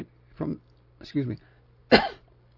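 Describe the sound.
Three short, rough bursts of throat clearing and coughing from someone with coconut stuck in the throat, evenly spaced, over a faint low hum.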